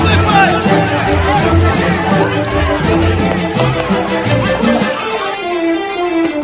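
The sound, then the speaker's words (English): A crowd charges into the street, a busy surge of babbling voices and running feet mixed with musical tones, loud and dense throughout before thinning slightly near the end. “He hops on the back as the crowd charges into the street.”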